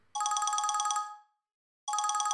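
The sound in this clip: A telephone rings with an electronic, rapidly pulsing ringtone: one burst of about a second, a short silence, then a second burst starting, moderately loud with no voices.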